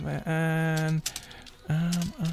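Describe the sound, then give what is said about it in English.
Typing on a computer keyboard: a few sharp key clicks sound alongside a strong, steady buzzing tone that starts and stops twice. “I can't even type.”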